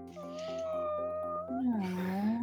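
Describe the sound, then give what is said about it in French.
A cat meows in a video game: a long, drawn-out tonal meow, then a louder second meow from about halfway through whose pitch dips and rises again. “Oh, un chat.”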